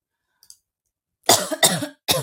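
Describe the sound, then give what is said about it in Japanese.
A person with a painful cough lets out three harsh, loud coughs in quick succession after near silence. Two faint clicks come earlier. “マジ、咳つらいなぁ。”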